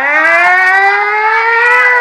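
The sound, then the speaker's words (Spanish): An ambulance siren arriving at the scene of a crash with a badly injured person, a loud, continuous wailing tone that climbs slowly in pitch over its whole length, alone without voices. “Ahora paso que llegó la ambulancia.”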